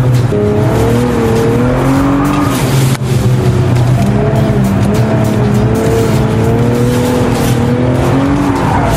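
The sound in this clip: Race car taking the last corners of a lap on a track, including a right-hand corner: a loud, continuous engine roar with shifting pitch, joined by the squeal of tires.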